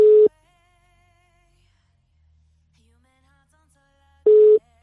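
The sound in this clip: Telephone ringback tones on an unanswered call: two short, steady tone bursts, one at the start and one near the end, separated by about four seconds of near silence.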